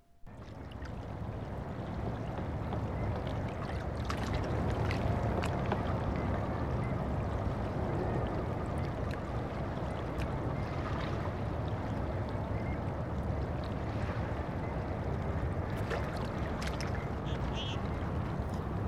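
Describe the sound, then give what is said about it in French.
Calm, windless morning ambience on an overcast, mild January beach in Vancouver: a steady, full wash of distant city hum and gentle sea, with brief faint higher sounds scattered over it. “It's a calm morning. I'm on Kitts Beach in Vancouver. It's slightly overcast and very mild for January.”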